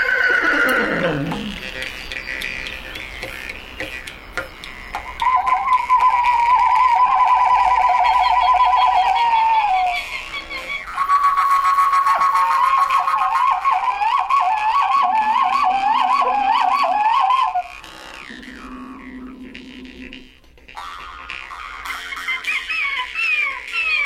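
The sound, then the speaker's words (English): Jew's harp twanging and vocal imitations of frozen-steppe animals by two young Saka herders, including horse-like whinnies. Wavering, buzzy tonal phrases rise and fall over a steady drone, broken by brief pauses between sections. “Ted Levin and Joel Gordon recorded two young Saka tribesmen who took a break from their herding chores to play a little bit of jew's harp and imitate the animals that inhabit the frozen steppes.”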